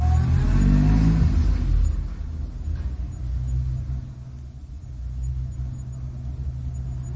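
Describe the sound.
A car engine revs hard as the car drives off, a loud throaty roar at the start that eases after a couple of seconds into a steadier low rumble that continues to the end.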